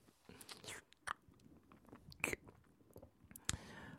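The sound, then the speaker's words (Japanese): Gentle biting of an ear, captured as close-up wet mouth sounds: a few soft, sharp clicks and crunchy nibbles rise out of a quiet, breathy background, with no talk. “ほら、耳こうして、優しく噛んであげようか。”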